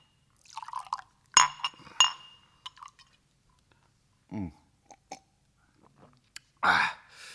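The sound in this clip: A glass of beer is served with a few sharp glass clinks and brief splashes of poured liquid. The faint sounds are spread apart by quiet pauses.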